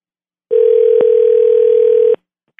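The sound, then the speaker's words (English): A steady telephone dial tone sounds for about a second and a half while a number is being dialed, with a faint click partway through and a soft tick after it stops. “You're talking to me when I'm dialing. You know you're not allowed to speak to me when I'm dialing.”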